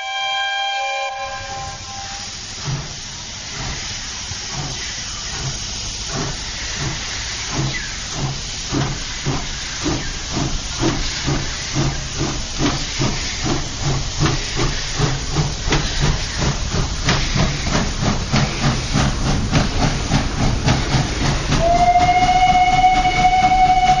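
A departing steam train blows a whistle, then loud steam hissing carries regular chuffs that start slowly and quicken as the engine pulls away. A second sustained whistle sounds near the end over the continuing hiss.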